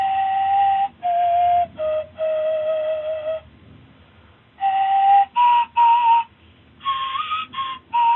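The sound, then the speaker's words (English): A replica Ice Age flute made from a vulture wing bone about 9 inches long plays many breathy, clear notes in short phrases, with a pause in the middle and one note sliding upward near the end. “One of the flutes is made of a vulture wing bone, about 9 inches long. A replica sounds like this.”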